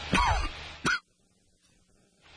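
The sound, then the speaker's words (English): A person coughs into a studio microphone during a weather update: two loud, harsh bursts, a longer rasping one and then a short sharp one, followed by near silence. “Excuse me, didn't mean to cough into the microphone”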